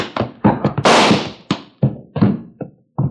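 A gunshot in a radio western drama set in a frontier town: one loud, sharp burst with a rushing tail, surrounded by a series of heavy thuds and knocks.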